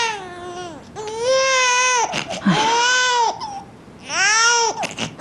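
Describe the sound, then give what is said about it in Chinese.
An infant cries hard in several long, loud wailing bursts, the pitched wails rising and falling with short gasping breaks between them. “你看宝宝哭得这么厉害”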